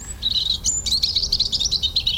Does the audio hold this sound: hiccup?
no